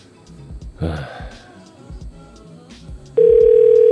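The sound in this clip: Telephone ringing on an unanswered call: after about three seconds of muffled voices, a loud, steady ring tone sets in abruptly and continues to the end.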